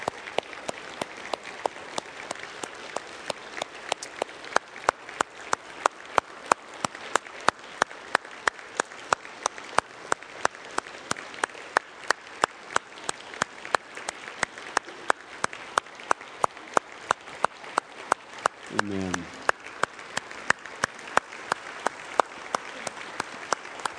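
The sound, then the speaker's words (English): Applause from a church audience welcoming guests, clients with their little children, comes as sharp, evenly spaced claps in a steady rhythm that carries on for over twenty seconds at a moderate level. “Here are a few clients and their little children that they chose life, and I think we need to give them a hand and celebrate this.”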